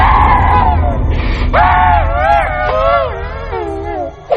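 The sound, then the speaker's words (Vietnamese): A woman's anguished wailing and crying in pain at a temple, a series of drawn-out, high, wavering cries that slide and fall in pitch over a low background rumble. “Tiếng gào khóc đau đớn thảm thiết của Yến khiến Nhân giật mình té ngửa ra sau.”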